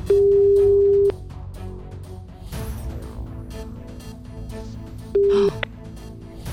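Telephone line tones as a call is placed to ring back a listener who signed up that day: a steady tone of about one second, a low, busy stretch of line noise, then a second short tone and a brief chirp.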